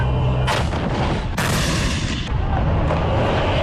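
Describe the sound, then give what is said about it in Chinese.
Heavy artillery fire from a live-fire military drill: several loud, sharp blasts spaced about a second apart, each bursting out of a continuous deep rumble, with no voices. “抵达阵地，实弹射击即刻展开”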